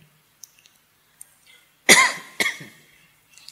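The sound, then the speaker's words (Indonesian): Two harsh coughs from a person, the first loud and the second slightly softer, preceded by a few faint clicks. “Batuk kayak gini terus mikir, jangan-jangan paru-paru saya.”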